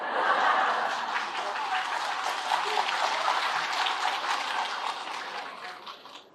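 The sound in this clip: Audience applause at a Buddhist dharma talk, a dense and steady patter of many hands clapping that holds at an even level and fades slightly toward the end.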